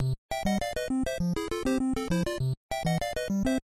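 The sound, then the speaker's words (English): The NES Super Mario Bros. theme with square-wave melody and triangle-channel bass: a nearly continuous stream of bright, buzzy chiptune notes over a bouncing low line, with a couple of short pauses. “And then when you add in the triangle, it adds in some sort of percussion.”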